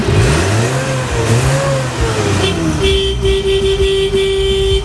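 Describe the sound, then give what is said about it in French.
Engine of a vintage 1960 D4B truck on a safari outing, revving loudly with pitch climbing and dropping in waves, then settling into a steady, held tone. “Vivez un safari avec Frédéric Bourgoin que j'ai eu la chance de rencontrer à bord d'un D4B véhicule rétro datant de 1960”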